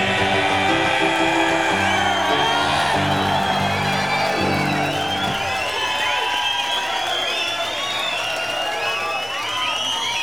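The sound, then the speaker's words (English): A comedy club audience cheers loudly, a dense, continuous roar of whoops, shouts and applause that holds steady throughout. “I do something about a guy who died of natural causes, you fucking boo. I do a guy that fucking shoots people and you fucking cheer.”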